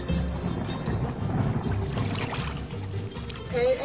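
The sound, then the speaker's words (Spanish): Soft water splashing as rainwater is collected, with faint irregular sloshes over a low steady background that stays quiet throughout. “Recogiendo agua de lluvia, ¿no ve?”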